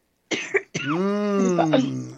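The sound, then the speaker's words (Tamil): A light, dry cough from a parched throat: a short rough burst, then a longer voiced throat sound that holds steady before trailing off. “லேசானது தான், லேசானது இருமல் வர பார்க்கறது, வறட்சி வறட்சி.”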